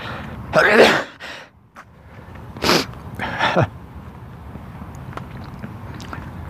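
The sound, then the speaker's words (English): A bout of morning sneezing, with a few loud, breathy bursts and sharp intakes of breath standing out against a quiet background. “Going to sneeze again.”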